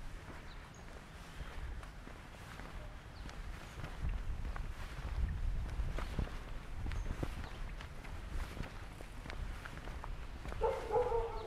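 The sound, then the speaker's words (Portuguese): Dogs barking in a street, faint and intermittent, mixed with soft shuffling footsteps and low street noise throughout, with no speech. “tenha identificado as raças de cachorro que estavam latindo.”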